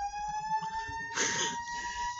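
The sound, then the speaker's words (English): Faint emergency vehicle siren passing outside: a steady, high tone rich in harmonics holds for about two seconds, with a short burst of broader noise midway. “This is like when we're meeting in Ripley Greer, it's like constant sirens.”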